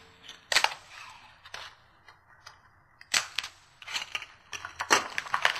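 Adhesive tape being pulled and torn: several sharp, crackling rips in separate bursts with quiet gaps between them, gaining pace toward the end, with no talk.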